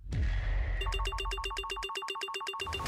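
A telephone ringtone: a burst of many rapid, evenly spaced electronic pulses with a bright, tonal timbre, sounding loudly for under two seconds after a brief noisy lead-in.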